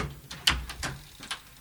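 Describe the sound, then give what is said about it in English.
Knocking at the door of a studio, a few quick, sharp raps in an uneven cluster, fairly loud and with no voices alongside. “Who's that at the Chatterbox studio door?”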